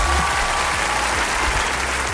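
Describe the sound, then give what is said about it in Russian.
An applause sound effect: dense, steady clapping at an even, fairly loud level throughout a brief burst, with no voices. “Мы Данила поздравляем с победой, шлем ему наши виртуальные аплодисменты, вот такие вот.”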